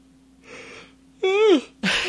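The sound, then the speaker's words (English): A person yawning: a faint breathy intake, then a voiced tonal moan that rises slightly and falls away, followed by a louder breathy exhale. “I'm yawning, sorry. I yawn a lot on Sundays because I'm so damn tired.”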